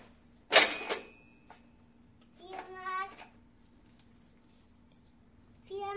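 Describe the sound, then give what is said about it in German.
Cash register opened with a single sharp, bright clatter and ring. A child's voice then speaks briefly twice afterward. “Aus der Kasse? Ja. Machen wir die Kasse auf.”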